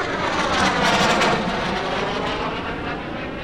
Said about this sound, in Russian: там, гораздо выше уровня облаков, затаились 4 истребителя